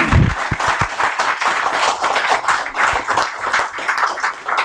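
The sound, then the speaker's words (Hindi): Audience applause at a lecture event: dense, sustained clapping from many hands, fairly loud and steady throughout, with a few heavier low thumps near the start. “एक बार हम जोरदार तालियां बजाकर मोहम्मद साहब का इस्तकबाल कर लें”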